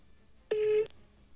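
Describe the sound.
A single steady telephone line tone rings out as one sustained beep of moderate pitch, about a third of a second long, over quiet line hiss, with no talking.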